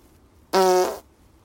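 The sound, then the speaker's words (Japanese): A single fart, a short buzzy blast of about half a second with a clear tonal rasp, loud and alone against a quiet background. “ちょっとおなら出そうなので出します。”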